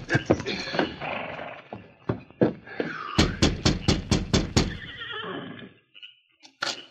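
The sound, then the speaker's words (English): A horse reined to a stop in front of a ramshackle cabin: many sharp, loud hoof clops and snorts mixed with a whinny, then a short lull and a final clop. “Several hours later, he reined up in front of a ramshackle cabin.”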